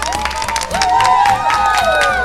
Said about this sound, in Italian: Applauso alla Fiera Cavalli!